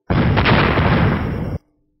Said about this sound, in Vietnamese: Một trận nổ liên miên truyền tới, trên cánh cửa là bằng đá tỏa ra ánh sáng năm màu chói mắt.